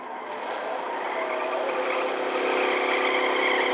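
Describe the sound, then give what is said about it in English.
A car engine, a fictional nuclear roadster speeding along in a radio drama, drones steadily with a smooth, continuous whir that grows slightly louder toward the end, with no voices. “Robbie, you're going too fast. Don't worry. This nuclear roadster handles like a dream.”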